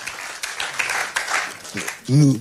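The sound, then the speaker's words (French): An audience applauds after a talk on Captain Dreyfus, with scattered claps and short bursts that rise and fade unevenly, before a voice cuts in at the end. “On peut applaudir Vincent Duclerc.”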